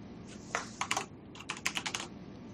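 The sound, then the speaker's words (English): Typing on a computer keyboard while writing a plain text email on Windows 10: quick, clicky keystrokes come in two short bursts split by a brief pause. They are fairly faint, with no voices. “So let me type in this plain text email.”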